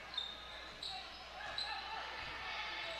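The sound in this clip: Basketball dribbled on a court during a girls' game between the Lady Blue Devils and Mountain Home, a few faint bouncing thuds beneath a commentator talking.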